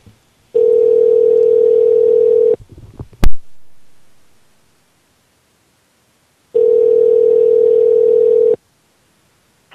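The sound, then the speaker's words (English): A telephone call ringing out: two long, steady ringing tones of about two seconds each, separated by a silent gap that holds a brief click and faint rustle. “I'm calling”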